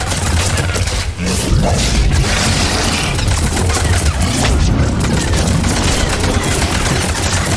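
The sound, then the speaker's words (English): Video game wall blowing apart in a sci-fi shooter, releasing a dense, loud, continuous barrage of crashing, booming and rapid gunfire-like bursts that fills the whole stretch. “The wall explodes and more brutes come out.”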